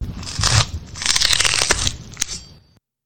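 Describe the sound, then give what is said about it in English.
Sound effect of a face being peeled off: a loud, crackling, wet tearing noise that surges several times over a few seconds, then a sharp snap before it fades out. “peeling your face off.”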